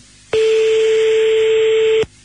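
A steady electronic telephone tone sounds as a call is placed. It holds one continuous pitch, loud and alone, for under two seconds, then cuts off abruptly.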